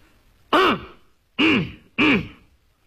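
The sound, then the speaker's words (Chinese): A storyteller's voice imitates two characters coughing with three short, loud throat-clearing coughs, each a gruff burst with a falling tone, spaced with brief silences between them. “又待了一会儿，阎婆惜咳嗽一声，嗯，宋江也咳嗽一声”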